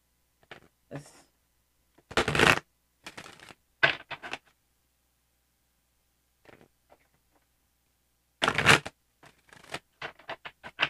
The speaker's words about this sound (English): before I close this reading, I'm going to pull a card from the Angel Guide Oracle deck.